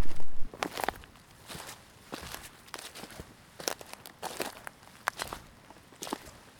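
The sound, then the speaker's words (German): Footsteps of hikers on a trail between forest and a broad valley: many irregular crunching steps in an uneven rhythm, moderately loud, with no voices. “Unser heutiger Walk ist geplant und eher entspannt. Wir laufen vom Schauinsland ins Münstertal.”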